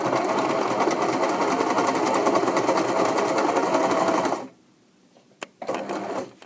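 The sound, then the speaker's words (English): A sewing machine runs with a fast, steady mechanical whir and rattle for several seconds, then stops abruptly, followed by a few faint clicks and a brief renewed buzz. “That mystery sound was the sound of my sewing machine.”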